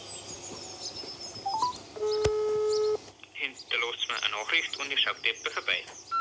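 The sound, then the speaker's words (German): Phone keypad beeps and a steady tone as a call is placed to an artificial insemination technician, with short beeps followed by a sustained tone of about a second, then a voice speaking. “Ich muss dann gleich einen Besamungstechniker anrufen.”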